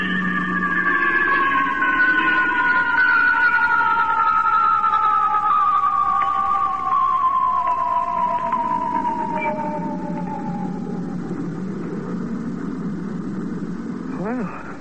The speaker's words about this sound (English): Now we're coming out of Star Drive already. Wonder how long we'll black out this time.